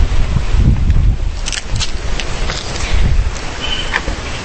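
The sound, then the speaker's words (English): Gusting outdoor wind buffets the microphone as a loud, steady low rumble with a broad rushing hiss, swelling and easing slightly across the stretch. “So I'm just going to go back out here so we can hear the gorgeous wind.”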